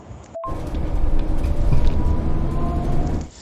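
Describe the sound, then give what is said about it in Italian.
Steady low engine rumble and road noise from inside a moving coach bus, with a faint mechanical whine over it. “Ah, sono in corriera.”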